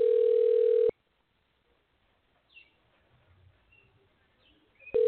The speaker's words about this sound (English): Let's see if I could call. Okay. Yep, I'm calling.